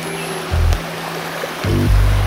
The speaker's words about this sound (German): Wir driften jetzt durch den verwunschenen Klosterwald. Immer wieder Stromschnellen. Da sind ganz schön gefährliche Gesteinsbrocken im Wasser.